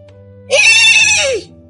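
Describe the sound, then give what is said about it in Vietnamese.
A horse neighs in fear: one loud, harmonic whinny lasting about a second. It rises sharply at the start and ends with a falling glide, over a low steady hum. “Thất ngựa lúc này kêu vang lên sợ hãi”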